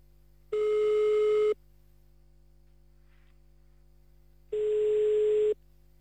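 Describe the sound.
An outgoing telephone call's ringing tone, heard while dialing a number in Jemeppe-sur-Meuse. Two steady, single-pitched beeps, each about a second long, are separated by a long silent gap over a faint line hum.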